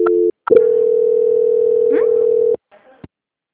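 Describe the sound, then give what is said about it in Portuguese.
A telephone line tone during a call transfer: a short steady tone, a brief gap, then a long, loud, mid-pitched continuous tone of about two seconds that cuts off into faint clicks. “Só um momento, tá? Transferência.”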